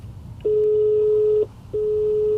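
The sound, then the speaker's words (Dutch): Telephone tones as a call is placed: two long, steady mid-pitched beeps separated by a brief gap, clear and alone with no talk. “Ik bel Arnoud Broekhuis van de ANWB.”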